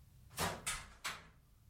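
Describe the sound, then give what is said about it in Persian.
A large brass key turns in a big brass lock on a school door, producing three distinct heavy clunks in quick succession, the first two close together and the third slightly apart, with no voices. “اما در همین حال صدای ترسناکی بلند شد. این صدای کلید گنده برنجی بود که در قفل گنده برنجی میچرخید.”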